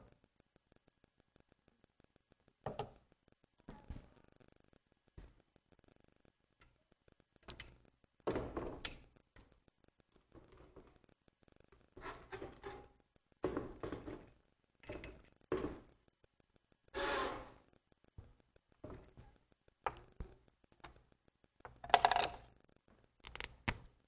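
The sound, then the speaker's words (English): Marker strokes drawing a rough sketch of a torch on a board: many short, scratchy bursts and light taps in an irregular rhythm, fairly faint, with no talk over them. “So when I think of a torch, you visualize a torch. Let's see if I can draw one on the board here.”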